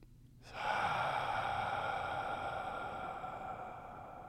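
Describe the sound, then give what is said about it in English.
A deep breath: one long, airy intake of air that starts abruptly, holds steady for several seconds and slowly tapers off, heard alone. “Take a deep breath first.”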